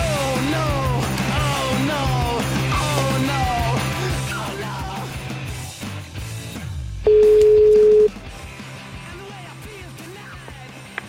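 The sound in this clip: Telephone ringing while a call is placed: after a dense, busy passage fades down, one steady, even ring tone sounds loudly for about a second, then gives way to quieter sound.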